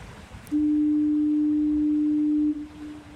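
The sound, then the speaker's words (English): The Fort Amherst foghorn gives one long, steady, low-pitched blast of about two seconds, loud above a faint background hiss, then stops abruptly. “this is a recording of the Fort Amherst foghorn.”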